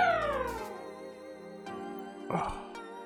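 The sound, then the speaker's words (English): Electronic howl of a robot dog from a retro action video game: a buzzy synthesized tone glides downward, then sustained electronic notes hold, with a short noisy burst near the end. “Was that the sound of the howling robot dog from Mega Man X? That is the sound of the howling Mega Man dog”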